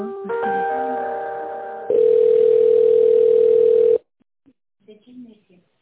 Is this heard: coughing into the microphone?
no

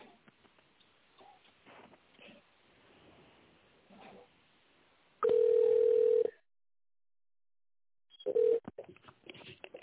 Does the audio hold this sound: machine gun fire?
no

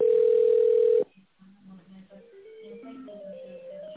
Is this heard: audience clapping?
no

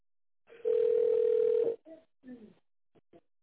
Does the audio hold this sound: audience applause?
no

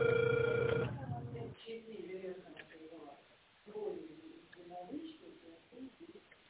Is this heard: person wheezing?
no

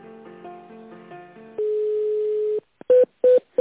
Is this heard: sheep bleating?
no

